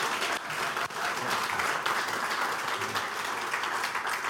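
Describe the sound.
An audience claps to welcome a guest speaker, producing steady, dense applause at an even level throughout, with no break in the clapping.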